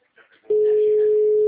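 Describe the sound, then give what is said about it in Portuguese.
A telephone line tone sounds while a call is being placed: a single steady electronic tone lasting about one second, following a brief, faint murmur of voice. “Tô ligando pra moça pra ver quem é que vai atender.”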